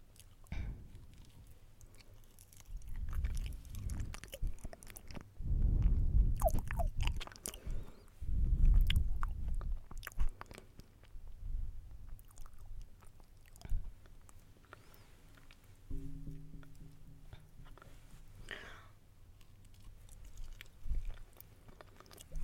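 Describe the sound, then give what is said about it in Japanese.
Soft, wet chewing of banana, with many squishy, muffled mouth bursts coming in an uneven rhythm, a few louder clusters standing out from quieter stretches, and no talking. “まあこんなに食べることないんじゃないかな、バナナ。”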